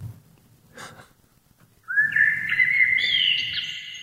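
A bird calls outdoors in nature during a birdwatching outing: a clear, sustained whistled phrase that climbs stepwise in pitch and carries over low background noise until the end.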